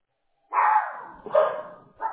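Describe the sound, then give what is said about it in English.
A pet dog barks excitedly at home, set off by seeing other dogs. There are three loud, sharp bark bursts, each fading slightly before the next, with the last one cut short. No one talks. “Apologies to my dog here, right next to me. I'm working remote. They see other dogs, they get excited.”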